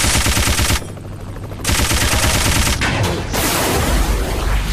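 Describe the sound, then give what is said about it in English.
Rapid machine-gun fire from a speed machine gun in a video game, loud and dense. The firing breaks off briefly near the start, then resumes in a sustained stream. “Machine gun. 100. Speed machine gun.”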